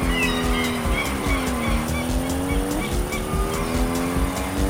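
Racing car engine from a video game: a loud, continuous droning whine that holds a steady tone, with its pitch dipping and rising slightly as the car races.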